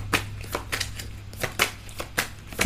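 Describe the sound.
Cards being drawn from a deck, heard as a series of soft, quick slaps and flicks at uneven intervals over a low steady hum.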